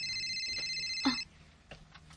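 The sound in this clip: A mobile phone rings with a steady, high electronic ringtone that stops abruptly partway through, followed by quieter, scattered small sounds.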